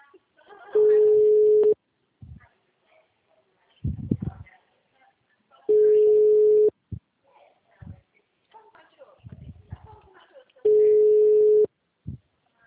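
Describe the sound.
Telephone ringback tones on an unanswered call that goes to voicemail: three long, steady beeps spaced about five seconds apart, with people talking and brief clicks in the gaps between them.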